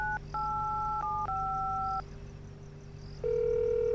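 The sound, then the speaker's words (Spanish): A telephone is dialing a number: a few keypad tones of differing pitches sound over a steady low line tone, pause, and then give way to a louder, sustained multi-pitched tone at the end. “Le voy a marcar ya.”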